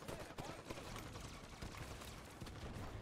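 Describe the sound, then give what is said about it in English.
Assault rifle gunfire in a video game, fired in rapid, dense bursts that run almost without break as a harsh, loud crackle. “This overpowered assault rifle garbage is really chapping me.”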